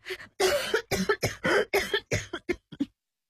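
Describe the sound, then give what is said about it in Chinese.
A woman, recently recovering from pneumonia, coughs repeatedly in a fit during a family argument, with many harsh, forceful coughs in quick uneven succession that taper to smaller hacks before falling silent. “陈逆双的妈妈突然咳嗽不止，爸爸赶紧上前劝他喝水”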